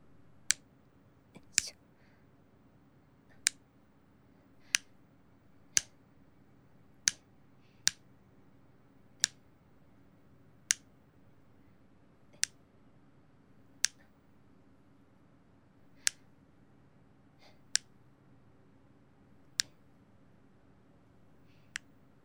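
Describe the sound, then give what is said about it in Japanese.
Nail clippers cut through a boy's hard fingernails, making many crisp, sharp snips separated by pauses of about a second or more, with near silence between the clicks. “やはり男の子の爪って硬いんですね。自分の爪切るよりちょっと力入れないとです。”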